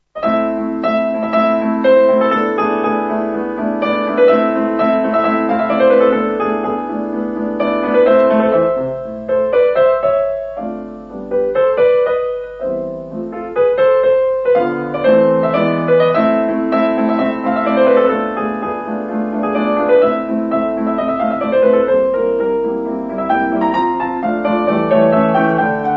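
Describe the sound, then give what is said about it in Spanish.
Solo piano playing the Allegro maestoso first movement of Mozart's Piano Sonata K. 310, a steady, loud, continuous stream of fast notes and full chords with no voices. “en esta sonata que es el 310, cuyo primer tiempo, allegro majestuoso, suena así.”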